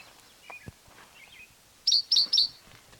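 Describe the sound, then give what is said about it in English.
A bird sings a few faint high notes, then three loud, sharp, high-pitched chirps in quick, even succession near the end. Nothing else sounds over a quiet background. “same bird, different song”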